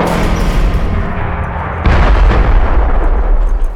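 A century-old elevator, unused for about a hundred years, starts up with a loud, rough rumbling roar that jumps sharply louder partway through and stays heavy to the end.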